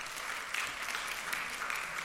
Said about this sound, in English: Let's give these guys a round of applause again.